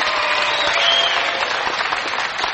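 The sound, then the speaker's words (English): Audience applause at the Grand Ole Opry as guest performers are welcomed, a dense, steady clapping from a large crowd that stays loud throughout. “let's make them welcome right now. Tom Paul and the Glazier Brothers. Having a nice hand for the boys.”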